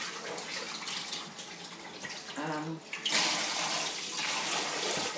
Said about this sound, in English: I'm just going to get this washing up done and then I'm going to get the dinner on.